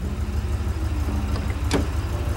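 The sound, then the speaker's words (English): Car engine running as the car is parked, a continuous low, even rumble that stays steady throughout without clear revving. “Natalie gets out of the car. While Bernie parks”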